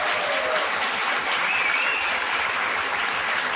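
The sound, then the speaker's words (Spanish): Loud, dense audience applause welcoming a guest actress on a comedy talk show: steady, continuous clapping that holds an even level throughout, with no speech over it. “Fuerte aplauso.”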